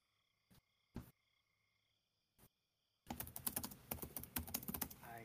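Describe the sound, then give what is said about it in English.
Typing on a computer keyboard: three isolated key taps, spaced apart, give way to a rapid, continuous run of clicking keystrokes. The clicking is crisp and there is no talking. “Yeah, I'll type it out for me real quick. I'm typing.”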